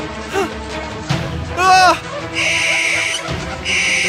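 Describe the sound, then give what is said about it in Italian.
An owl screeches in a few harsh, piercing cries, the first a warbling shriek and the next ones rasping and noisy, loud and standing alone. “una civetta dagli occhi ardenti le volò attorno 3 volte e per 3 volte gridò: ah!”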